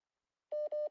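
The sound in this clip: Two short, identical telephone tones in quick succession as an incoming call from Chile fails to connect; each beep is steady in pitch, clean and alone against silence.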